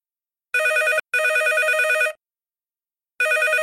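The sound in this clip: A telephone rings before a caller asks about a bicycle for sale. A bright electronic double ring sounds twice in quick succession, then falls silent, and a third ring begins near the end.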